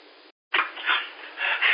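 A dog barks before taking a bite: a few short, yipping barks, fairly faint, after a brief silence.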